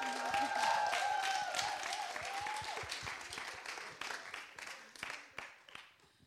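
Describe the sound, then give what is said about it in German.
Faint applause from the audience at a church conference: full clapping at first, slowly thinning into scattered, separate claps as it dies away. “Ein Applaus für das Church News Team.”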